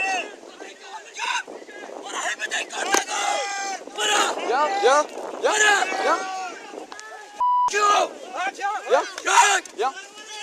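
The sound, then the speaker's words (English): Shouting and yelling from a crowd as officers are pelted with rocks and driftwood on a beach near Calais, with wind buffeting the microphone and a couple of sharp knocks among the cries. “That's the sound of officers being pelted with rocks and driftwood on a beach near Calais in June.”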